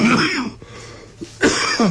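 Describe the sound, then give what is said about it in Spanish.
A person coughing and clearing their throat in a short fit during a conversation, a few rough, harsh bursts separated by brief pauses, fairly loud and alone without speech. “Ahora nos va a contestar cuando se le pase la tos.”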